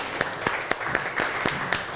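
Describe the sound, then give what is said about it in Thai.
Children in a classroom clap for themselves and their classmates during a lesson, a run of evenly spaced, rhythmic claps, roughly eight in a row, at moderate volume. “ใครคิดเหมือนกับเพื่อนบ้างช่องนี้ปรบมือให้ตัวเองแล้วปรบมือให้เพื่อนหน่อยครับ”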